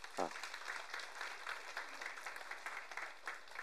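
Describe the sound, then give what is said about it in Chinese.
A church audience applauding the teachers with faint, steady clapping from many hands; a voice is briefly heard at the start. “老师们很辛苦了，我们为了老师们鼓掌好吗”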